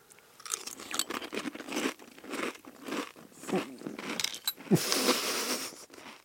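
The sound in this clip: Crunching and chewing of green-onion-flavored Chex cereal eaten with milk: many irregular, crisp bites and munches that come in bursts, fairly loud and close, with no clear talk.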